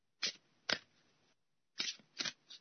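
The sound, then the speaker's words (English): Playing cards being shuffled by hand, heard as five short riffling bursts: two quick bursts, a pause, then three more in fast succession, crisp and fairly soft with no voices. “I'm shuffling the cards, waiting for someone to say stop.”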